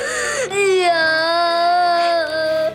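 A child cries in one loud, sustained, high-pitched wail that wavers slightly and holds almost unbroken to the end.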